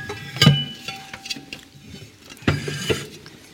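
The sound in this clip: A basin clatters as it is picked up and handled, with a few brief knocks and bumps spread across the moment and a quiet scraping between them.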